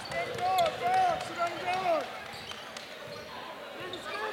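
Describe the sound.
A basketball is dribbled on a court during a game, with repeated sharp bounces in a steady rhythm under continuous play-by-play commentary and a faint crowd murmur.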